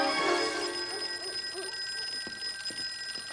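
A telephone bell rings alone in a steady, bright, high metallic trill. It runs unbroken from start to finish and is slightly louder at the opening.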